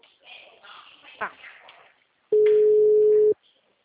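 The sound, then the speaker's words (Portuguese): A telephone ringing tone on the line: after a short stretch of talk, a single steady mid-pitched tone sounds for about a second, loud and flat, then stops. “Tá chamando”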